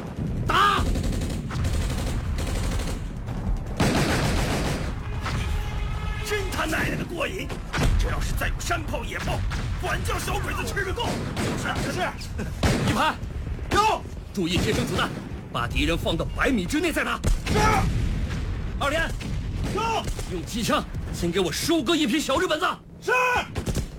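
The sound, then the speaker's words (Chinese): Mortar fire during a wartime battle against Japanese troops near Shanghai, with heavy blasts and bursts of gunfire crowding the whole stretch and voices shouting over the din. “哎，弟兄们快看，小鬼子上来了，该咱们迫击炮发威了。迫击炮，准备！”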